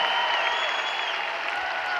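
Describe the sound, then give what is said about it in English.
An audience applauds, a dense, even wash of clapping that holds steady for a couple of seconds. “But give yourselves a great applause.”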